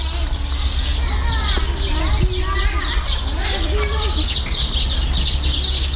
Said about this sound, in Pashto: له کلا سره نږدې ماشومان په لوبو بوخت دي.